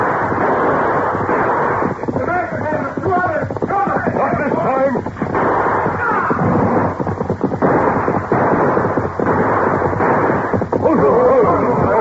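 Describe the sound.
Gunfire in a shootout from an old radio western drama, with many sharp shots and booming bursts in a thin, muffled tone, mixed with voices.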